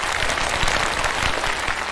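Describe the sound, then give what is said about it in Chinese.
Audience applause for stage performers, many hands clapping in a dense, loud, steady burst with no pause throughout. “首先，我要给你们这个掌声，给你们。”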